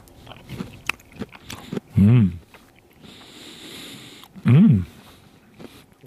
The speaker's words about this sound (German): Ich nehme nochmal einen Haps. Auch der Blumenkohl, der angeröstete, der schmeckt, finde ich, sehr, sehr lecker.